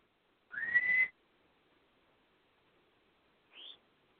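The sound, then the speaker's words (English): Birds calling, quietly: one longer whistled call with a slight upward sweep, then a few seconds of near silence before a short, higher chirp. “Hi birds, go to bed.”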